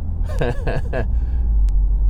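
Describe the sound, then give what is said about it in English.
Steady low rumble of a car driving along a road in Latvia, a constant road drone with a few brief voice-like sounds near the start. “Although you wouldn't know it by this footage as we're driving through the Latvian road here.”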